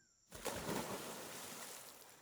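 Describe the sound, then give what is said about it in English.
Water splashing in a pond, a single faint burst that starts abruptly and trails off into a fading wash. “That splashing noise. Perhaps it's near a pond.”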